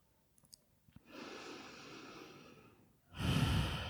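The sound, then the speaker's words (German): A deep breath during a guided relaxation exercise: a long, airy inhale, then a louder, breathy exhale through the open mouth after a short pause. “nimm tiefen Atemzug ein und durch den geöffneten Mund aus.”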